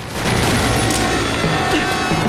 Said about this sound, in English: The driver's window shatters. Ethan raises his pistol and returns fire against the helicopter overhead.